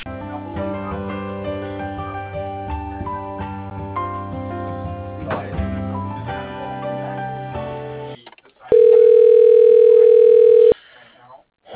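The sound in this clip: A steady single-pitch telephone tone sounds for about two seconds while a call is transferred to voicemail. Several seconds of tonal, music-like sound come before it, and the tone cuts off abruptly.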